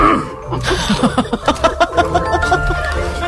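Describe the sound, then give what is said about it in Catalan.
A man clears his throat over the telephone in a series of short, rough, guttural pulses in quick rhythm. “El primer que fa és escurar-se la gola, anem bé.”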